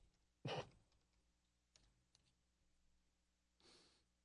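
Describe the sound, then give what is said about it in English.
A name is typed into a computer search: quiet keyboard clicks with one sharp burst of keystrokes near the start, a couple of isolated taps, and another brief flurry near the end. “I bet you if I just type in his name along with puppeteer. I'm sure something will come up.”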